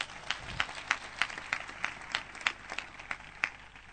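Rhythmic group clapping at a steady beat of roughly three claps per second, many evenly spaced, fairly faint strikes over a low background murmur.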